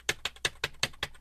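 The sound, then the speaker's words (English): Keys clacking on a computer keyboard as an email is typed live, six crisp, evenly spaced keystrokes in quick succession. “now I'm going to live type this to him. Listen.”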